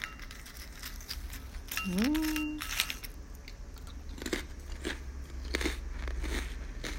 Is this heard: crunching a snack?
yes